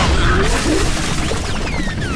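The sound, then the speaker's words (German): A tree branch smashes through the cockpit canopy of a fighter aircraft in flight: a loud, dense crash with shattering debris and rushing wind noise that fills the whole moment. “Der Ast hat die Cockpithaube zerschlagen! Wir gehen runter!”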